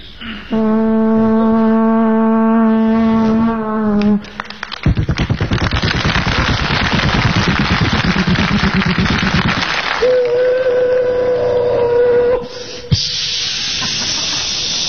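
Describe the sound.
A voice imitates a train: a long droning whistle-like tone, then a steady rapid chuffing hiss for several seconds, then a second sustained whistle tone.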